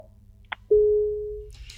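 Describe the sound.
Telephone line tone on a call that fails to connect: a brief click, then one sustained mid-pitched beep lasting under a second, followed by faint hiss.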